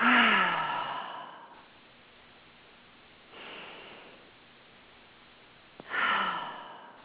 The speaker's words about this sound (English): Now I want you to take 3 deep breaths in and blow out.